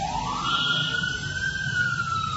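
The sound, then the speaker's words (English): An emergency vehicle siren wails in a steady, loud tone that rises in pitch at the start and then holds, over a low rumbling background. “Now they have this siren.”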